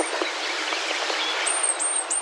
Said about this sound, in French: j'étais en train d'enregistrer un mâle de mésange bleue qui chantait